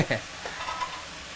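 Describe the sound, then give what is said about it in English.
Thick, chewy blanched egg noodles are stirred in a pan with oyster sauce and fish sauce: a scraping stir at the start, then a few soft strokes over a steady, hissing sizzle. “Stirring it in with the ingredients and that oyster sauce and fish sauce.”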